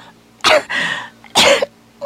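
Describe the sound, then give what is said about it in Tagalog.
A person with a lingering cough lets out harsh coughs. Two loud, sharp bursts each trail off into a raspy, wheezing breath, and a third cough begins right at the end. “Pila na nakahigayo na imong ubo. Murag mo na'y undang-undang na imong ubo.”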